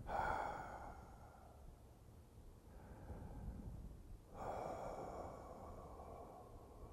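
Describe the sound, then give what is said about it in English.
Quiet breathing through an open mouth, an exhale followed by an inhale: two long, soft, airy breaths separated by a brief lull, faint and unaccompanied by speech. “begin by opening the mouth and exhaling the breath. See, then inhale. And you do it kind of quietly.”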